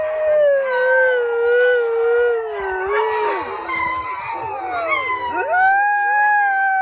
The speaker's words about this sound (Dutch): Nee, dit is toch echt een huilende hond inderdaad.